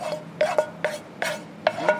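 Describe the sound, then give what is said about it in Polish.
Stirring of diced apple and onion warming in a frying pan for a pierogi filling, with several scraping strokes of a utensil against the pan at an uneven rhythm and no voices. “W momencie, kiedy już to się dobrze nagrzeje, żeby nam się dobrze to też mieszało razem z tym farszem, musi być ciepłe, mieszamy to wszystko i dajemy do farszu.”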